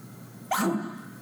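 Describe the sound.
A human voice imitating a cow's alarm bark, the reply given to a barking bull: one short, sharp, abrupt bark with a quick fade, heard alone.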